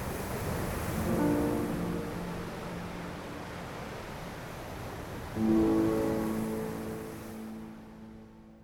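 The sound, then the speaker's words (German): Ocean waves wash at the foot of cliffs as steady, rushing surf. Two louder swells build around the start and the middle, and the sound thins and fades toward the end. “Ich setzte mich an den Rand der Klippen, lauschte eine Weile den Wellen und blickte auf die untergehende Sonne.”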